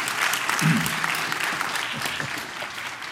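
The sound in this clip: Applause from a church audience welcoming first-time visitors at Briarcliff, a steady, dense clapping that holds for the whole stretch with a voice faintly beneath it.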